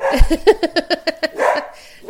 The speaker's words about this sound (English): See, the dog agrees with me.